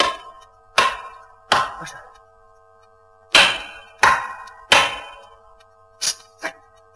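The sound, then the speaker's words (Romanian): Hard, ringing blows on a wall as trapped people pound to signal rescuers: seven loud knocks with a sharp attack and a resonant, slightly metallic decay, coming in uneven clusters with pauses between them. “Să batem în perete cât putem mai tare.”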